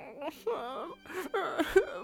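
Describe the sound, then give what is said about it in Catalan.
A 12-year-old boy cries in a few wavering, whimpering bursts of sobbing wails, with short gaps between them. “En Jack s'estimava la vaca com ningú i va posar-se a plorar.”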